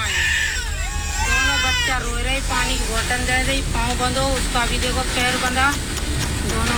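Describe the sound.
A young child, tied by the leg, cries in a high, wavering wail broken by sobbing catches, over a constant low hum and hiss.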